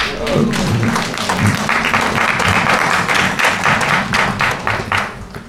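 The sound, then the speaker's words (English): Audience applause during a religious talk: a dense, even patter of many hands clapping, moderately loud and sustained for about five seconds without a clear break. “is that all? You don't applaud louder here? It's all right. You have other chances to applaud.”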